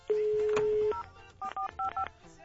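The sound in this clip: Telephone keypad tones as a number is dialed: a long steady tone, then a few short two-pitch beeps in quick succession.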